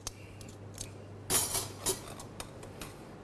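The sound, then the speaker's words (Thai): Pestle pounding fresh chili and garlic cloves in a mortar for a holy basil stir-fry: faint, irregular knocks and clacks, with a few louder strikes near the middle over a low, steady hum. “ใส่ลงไปครับแล้วก็กระเทียม8กีบนะครับหรือว่าประมาณ1ช้อนโต๊ะนะครับแล้วก็โขกให้เข้ากันนะครับ”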